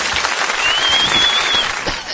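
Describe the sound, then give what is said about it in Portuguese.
Applause for a performer, with steady, dense clapping throughout and a high sustained whistle ringing over it through the middle. “Pronto, ó, palmas pro Maurício Saldanha.”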